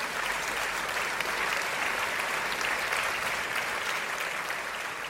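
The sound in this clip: Applause from a show audience rising to welcome an Army combat veteran and best-selling author, a dense, steady clatter of many hands that keeps an even level for the whole clip.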